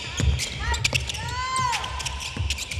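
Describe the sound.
A basketball bounces with several sharp thuds during a women's team shooting practice of mid- and long-range jump shots, the hits landing at irregular intervals.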